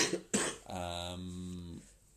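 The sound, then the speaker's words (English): A person with a bad cough gives two sharp, loud coughs in quick succession, followed by a drawn-out voiced throat sound that fades away. “I've got a really bad cough.”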